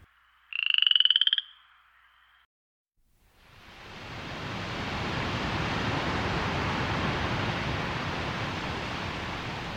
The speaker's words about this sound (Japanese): ケケケケケケ、カエルの鳴き声。